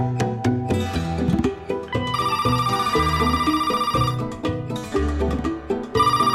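A telephone rings with a bright, steady tone for about two seconds in the middle, set over busy background music.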